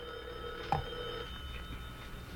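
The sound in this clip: A telephone rings faintly, with steady electronic tones under a low background hiss and one brief click partway through.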